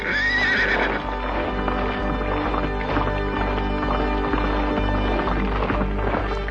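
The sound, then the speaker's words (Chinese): A horse gives a high whinny at the start, then its hooves beat in a steady, rhythmic clip-clop as it sets off, loud and continuous over a dense backing sound. “这位有着雄心壮志的年轻王子，骑着那匹心爱的骏马出发了。”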